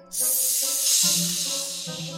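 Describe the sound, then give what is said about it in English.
Loud, sustained hissing, snake-like and breathy, starts abruptly and holds steadily for about two seconds. A faint low tonal hum sits underneath. “The beans hissed at me.”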